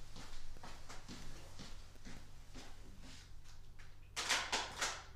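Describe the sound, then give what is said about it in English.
Footsteps of a person walking across a room after taking a sip of water, soft, evenly paced thuds in a steady series, ending with a few brighter, louder knocks or scuffs. “Take a big sip and then walk all the way back. Let me see how that sounds. Do it on the back. Yes, let me open this up. He's walking over there.”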